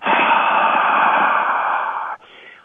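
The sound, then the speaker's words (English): A slow, deep exhalation: one long, breathy rush of air held steady for about two seconds, then cut off and followed by a fainter, trailing breath. “take a nice, slow, wonderful, deep breath out, all the way out.”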